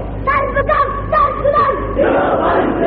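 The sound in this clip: A crowd at a political party gathering chants a slogan loudly, with many voices shouting short rhythmic phrases in a steady, forceful sequence.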